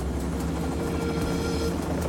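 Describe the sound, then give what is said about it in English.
A helicopter takes off and flies away, a steady low engine drone laced with a rhythmic rotor chop that continues throughout. “The helicopter takes off, rotates around, and flies away.”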